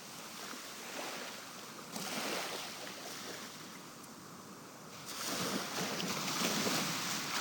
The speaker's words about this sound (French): La mer facile à reconnaître, hein.